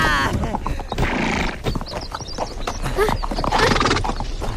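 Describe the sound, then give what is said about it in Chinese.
Horse hooves clip-clop steadily as the horse is ridden, with a whinny among the loud, busy hoofbeats. “驾驾，慢点慢点，骑着骑着。”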